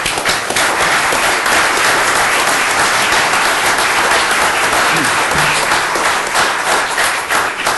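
Loud audience applause welcomes a university provost to the podium at an event. Dense, steady clapping fills about eight seconds without a break.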